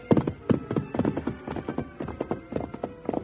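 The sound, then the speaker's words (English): Horse hooves clip-clopping as a rider heads up a trail from a ranch, a steady run of many dull hoofbeats in an even, uneven-paired rhythm at moderate loudness with no voices. “Within a short time, Jim rode from the ranch and started up the trail.”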